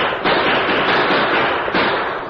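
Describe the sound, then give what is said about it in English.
Gunshots fired from the saddle by riders on horseback merge into a loud, dense volley of crackling reports that runs without pause, swelling again partway through. “the masked man and Tonto drew their guns and started firing from the saddle.”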